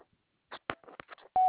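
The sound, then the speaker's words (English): A voicemail recording tone: a few short, crackly bursts come first, then a steady single-pitched beep starts and holds until the end. “At the tone, begin recording.”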